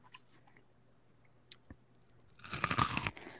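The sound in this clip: A person bites and crunches into corn: a short, crisp burst of crunching chews after near silence, with a few faint clicks before it.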